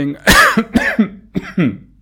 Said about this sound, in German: ich huste noch, also nicht wundern, wenn ich ab und zu huste.